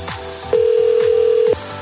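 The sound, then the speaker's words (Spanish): A phone call cutting off, heard as one steady electronic tone lasting about a second, mid-pitched and loud above a faint background. “Se cortó la llamada.”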